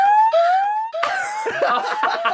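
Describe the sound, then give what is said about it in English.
A laughing reaction looped over and over as a makeshift siren sound effect, its rising, tone-like whoops repeating back to back before breaking into a denser, rougher stretch of laughter-like bursts. “we thought if we repeat that sound over and over, it could be a new siren for the show”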